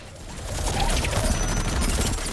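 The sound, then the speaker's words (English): Heavy gunfire as concealed French soldiers ambush a truck in a warehouse: rapid, overlapping crackling shots merge into a loud, continuous roar that swells after the opening and holds steady. “French soldiers concealed in the warehouse prepare to ambush the truck. Kruger and Dekirk fire at them. A soldier is hit.”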